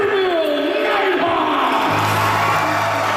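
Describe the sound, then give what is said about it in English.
More than a hundred people in a hockey rink cheer and whoop, celebrating the Niverville Nighthawks' Centennial Cup national championship and welcoming the team back. The roar of crowd noise is loud and unbroken throughout. “More than 100 people in the team rink celebrating their national champions and welcoming back the Niverville Nighthawks after their Centennial Cup win in Prince Edward Island.”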